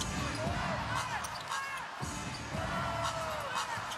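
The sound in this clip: A basketball is dribbled during a live NBA game between Toronto and Atlanta. Several bounces sound under continuous commentator talk and a faint crowd murmur.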